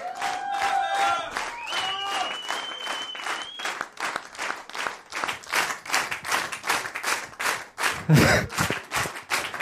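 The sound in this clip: Applause from a crowd at a Fasching carnival gathering: dense, sustained clapping that runs the whole time, with a few bright, whistle-like tones early on.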